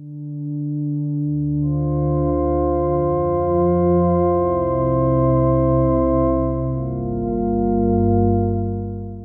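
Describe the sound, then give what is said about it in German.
Sustained synthesizer chords from a Diva software synth patch with chorus and plate reverb switched off, steady and dry, shifting through several slow chord changes at an even loudness. “Ich habe zur Demonstration mal ein Patch aus Diva genommen und in diesem Patch habe ich jetzt Chorus und Plate deaktiviert. Das klingt so.”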